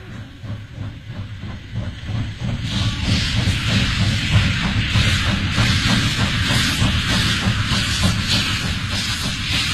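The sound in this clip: Steam train departing, a regular rhythmic chuffing with clattering wheels, joined after a few seconds by loud, sustained steam hiss that stays over the steady beat.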